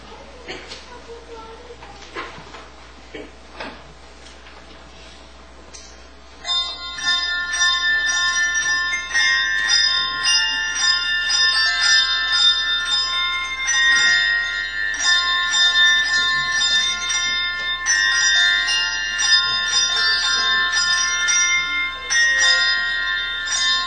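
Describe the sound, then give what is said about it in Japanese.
A handbell choir plays the Christmas hymn Angels We Have Heard on High, its bright ringing chords coming in after a quieter opening and carrying on loud and sustained, with overlapping bell tones layered into the tune. “ハンドベルの賛美歌、荒野の果てにをお聴きください。”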